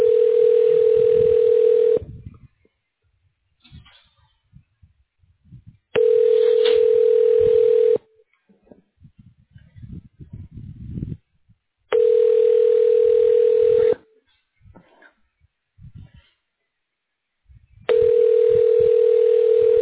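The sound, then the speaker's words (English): Telephone ringing tone while a call is transferred to another line: four steady, even-pitched tone bursts of about two seconds each, separated by roughly four-second gaps with faint low rustling, the last burst cut off at the end. “One moment while I transfer you.”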